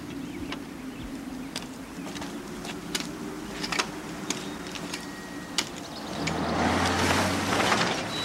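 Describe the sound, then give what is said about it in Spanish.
A car passes by: its engine and tire rush swell into a broad, louder roar over the final two seconds, after a quieter stretch of low hum and scattered small clicks. “Un coche pasa de largo.”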